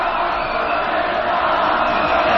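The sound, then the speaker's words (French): A crowd cheers a footballer hailed as a national hero during the World Cup, a dense, steady roar of many voices that holds loud and even throughout. “Il regarde les gens qui l'acclament.”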